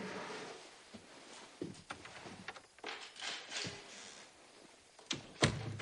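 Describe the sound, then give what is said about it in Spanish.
A bathroom door off a bedroom is pushed shut, with soft knocks and shuffling thumps leading up to a louder closing thud near the end. “Se mete en el baño ante la mirada radiante de su marido que se apresura a cerrar la puerta.”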